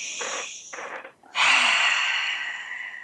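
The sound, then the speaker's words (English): A deep centering breath: a breathy inhale in short pulls, a brief pause, then one long, loud exhale that slowly fades. “So I really invite all of you to take a deep centering breath.”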